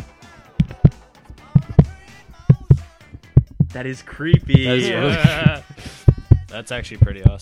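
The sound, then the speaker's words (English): A dollar bill snapped taut over and over makes a steady run of paired, thumping snaps that mimic a heartbeat, while people talk over the middle stretch. “Why does it sound like that? Why does the dollar bill snapping sound like this?”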